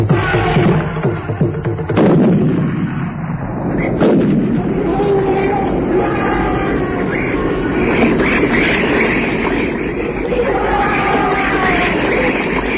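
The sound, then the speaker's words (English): Rifle shots from a Rigby in a hunting drama: two loud, sharp cracks a couple of seconds apart, set against a heavy, continuous rumbling roar that fills the whole scene. “The bullet from Grant's Rigby dropped one bull, but the rogue only staggered.”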